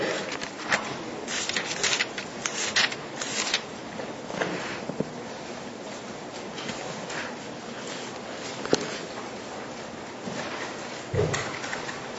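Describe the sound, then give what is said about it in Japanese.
Pages of Bibles rustle and flip as listeners open to a scripture passage, making a dense, uneven crackle of paper with many soft bursts and no voices. “じゃあちょっと開けてもらいましょうか。出エジプト記の24章の8節、”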